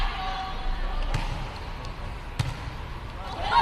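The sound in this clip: Volleyball served during a match, with the Shandong team serving: a couple of sharp slaps of hand on ball over a steady hum of arena crowd noise.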